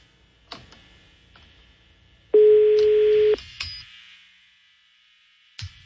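An unanswered telephone call going to voicemail: a single steady ring tone lasting about a second, surrounded by scattered faint clicks and taps.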